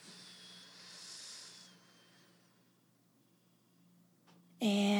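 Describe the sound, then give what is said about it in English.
A deep breath drawn in through the nose, a soft airy hiss lasting about a second that tapers away into quiet. A voice starts abruptly at the very end. “Full exhale and last deep cleansing breath. Make this really count in through your nose.”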